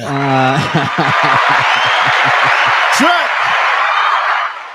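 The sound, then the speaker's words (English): Applause and cheering for Jim Carrey on a comedy show: a sustained wash of clapping runs under a man's talking voice, then thins out near the end. “Oh, I think we can give it up one more time for Mr. Carrey.”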